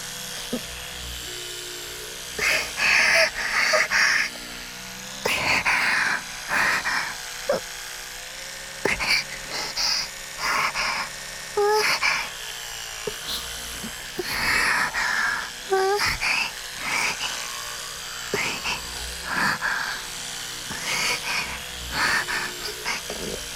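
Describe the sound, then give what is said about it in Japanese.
An electric toothbrush buzzes steadily throughout, with a woman's voice and breathing over it. “やってみますね。電動歯ブラシをクリトリスにこうやって当てて、”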